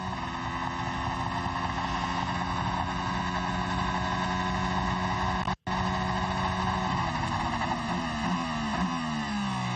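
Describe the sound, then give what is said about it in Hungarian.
Sebastian Vettel's Formula 1 car beginning a timed qualifying lap in the evening, a loud, high, sustained engine whine rich in harmonics, broken by one very brief cut partway through. “Na nézzük, Sebastian Vettel kezdi meg a mért kört.”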